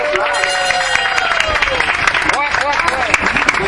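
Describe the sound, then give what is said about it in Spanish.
Applause and cheering from a crowd for a club captain, a dense, steady wash of clapping with voices calling and talking over it throughout. “vamos a darle un fuerte aplauso al Capitán del Club de”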